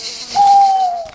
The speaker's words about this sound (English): Oh, that's only an owl. They'll be looking for mice and rats.